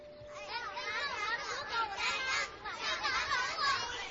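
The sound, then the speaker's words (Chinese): Children play noisily in a legend of climbing to the top of the Jianmu tree. Their high-pitched, overlapping chatter and shouts rise and fall in lively bursts at a fairly low level. “人间的小孩子经常爬到建木的顶上去玩，孩子们吵闹的声音一直传到天宫里，惊动了皇帝。”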